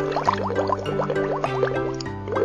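Bubbling gurgles come from a glass of liquid as air is blown through a straw, with many quick, rising blips and pops in a steady, continuous stream.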